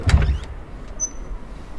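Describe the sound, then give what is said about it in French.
An entrance door opening onto a service counter, heard as a short low thump followed by a faint mechanical whir and a brief thin whine, with no voices. “La porte s'ouvre généralement et nous arrivons donc au guichet.”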